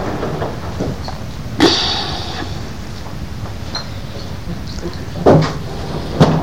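A door is pulled shut, giving a few sharp knocks and thuds spaced out over a quiet background hush.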